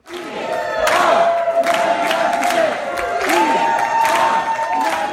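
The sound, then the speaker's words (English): Crowd in a convention hall at the Green Party convention in Houston chanting "we are the 99%", loud rhythmic massed voices mixed with cheering and applause. “You hear the chant in the hall, we are the 99%.”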